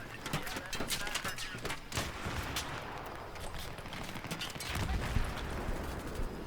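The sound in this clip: Gunfire in a video game: many sharp shots and rapid bursts cutting through a dense, noisy game soundscape, irregular in rhythm and fairly loud throughout.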